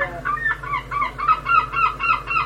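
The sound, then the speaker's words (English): Herring gulls calling from town roofs in a seaside town, many loud, repeated honking cries in a steady rhythm, heard alone without talk. “Herring gulls started nesting on roofs in Scarborough in the late 60s, earlier in Whitby, and kittiwakes much more recently.”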